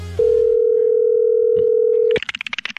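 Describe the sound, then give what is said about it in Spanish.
A telephone dial tone sounds while a call is being placed. One steady, loud, even tone holds for about two seconds, then a quick run of short, pulsing tones follows. “Bueno, estamos llamando a Rosa Melo a ver si lo quiere recibir en su casa.”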